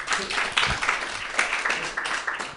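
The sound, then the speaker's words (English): An audience at an open mic comedy night claps for a comedian: a steady, fairly quiet wash of many hands clapping. “Clap for him again.”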